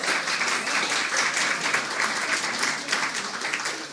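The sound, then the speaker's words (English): Audience applause follows the finalist announcement for the 2016 Neustadt International Prize for Literature: dense, steady clapping that holds an even loudness throughout, with no voices standing out. “I mean, I think that deserves a round of applause.”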